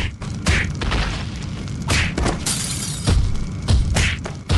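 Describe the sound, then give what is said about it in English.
Heavy booms, thuds and crumbling crashes as brutes break apart a statue's foundation in a radio-drama effect: several loud impacts in an irregular rhythm over a low, rough rumble. “Those brutes are breaking the foundation of that statue by that child. Surely that child will be crushed.”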